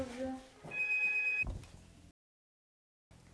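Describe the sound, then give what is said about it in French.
A telephone rings once with a short, steady electronic tone after a voice, then the sound cuts to silence. “Téléphone. Ça, c'est le téléphone.”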